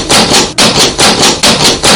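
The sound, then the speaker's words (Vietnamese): Urgent knocking on a door late on a quiet night: heavy, rapid blows come in a loud, insistent series with only brief gaps between them. “Đêm khuya đang yên tĩnh, bỗng vang lên tiếng gõ cửa dồn dập.”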